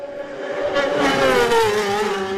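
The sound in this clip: A BMW racing motorcycle flashes past at speed on the line during a road race, a loud, continuous high engine whine that swells and slides slightly down in pitch as it passes.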